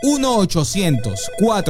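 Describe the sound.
A telephone ringing after a number is dialed, its bright ring heard under continuous talking.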